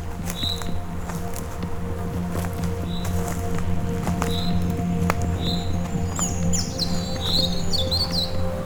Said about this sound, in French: Vous entendez ces messagers de la nature et des arbres que sont les oiseaux.